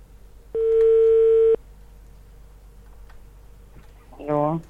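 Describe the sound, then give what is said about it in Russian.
A telephone dial tone sounds as a single steady, mid-pitched hum lasting about a second while a number is being dialed, then cuts off into near quiet. “И я уже набираю заветные цифры, которые переписала себе на листок для того, чтобы не ошибиться с цифрами, не ошибиться с номером.”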